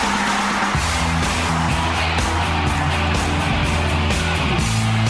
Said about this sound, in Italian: senti dopo il traffico, senti un po', senti che arriva. C'è il traffico!